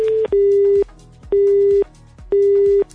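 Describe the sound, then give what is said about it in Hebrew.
A telephone busy signal sounds on a call that will not go through: a steady electronic tone pulses on and off in an even rhythm. After a clipped opening beep come three full half-second beeps, each separated by a short gap of quiet. “כן, אז צריך לנסות להתקשר שוב, כי יש לנו תפוס כזה.”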